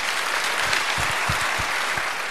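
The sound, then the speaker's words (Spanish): An audience at a municipal ceremony applauds the Guardia Civil of Guijuelo, a steady, full burst of clapping throughout. “Así que un aplauso para toda la Guardia Civil de Guijuelo.”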